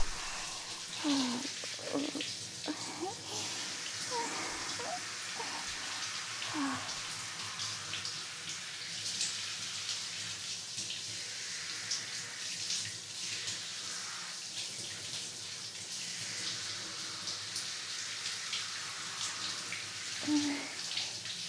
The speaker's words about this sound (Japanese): それがダメージになるんで、しっかりと入念にシャワーを当てて、